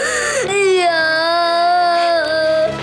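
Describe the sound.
A young child crying: one long, loud, sustained wail with a wavering pitch, drawn out across nearly three seconds.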